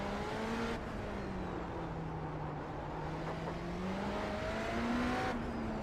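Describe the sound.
Car engine in a racing video game drones steadily with no pause, its pitch sinking slowly and then climbing again toward the end amid a constant hiss, with no talk.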